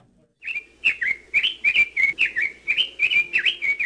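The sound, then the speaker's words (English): Red-billed leiothrix call, a non-native bird in Hawaii: many loud, clear whistled phrases repeated in a quick, steady rhythm, each a bright warbling note cluster, heard alone. “Red-billed Leothrix are one of the prettiest non-native birds that live in Hawaii.”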